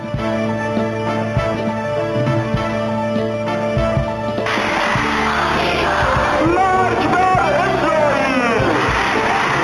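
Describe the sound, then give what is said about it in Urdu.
A large crowd at rallies in Iran shouts slogans together in loud, rough bursts of many voices, rising in force midway over a steady background hum. “امریکہ مردہ باد، اسرائیل مردہ باد کے نعروں سے ایران اور دنیا کے بیشتر ملکوں کی فضا گونجتی رہی۔”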